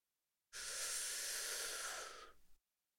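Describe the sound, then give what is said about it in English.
A deep breath drawn in while the arms stretch overhead: one steady, airy rush of about two seconds that holds its strength, then tails off unevenly at the end. “Reach your hands high up to the sky and take a big breath in.”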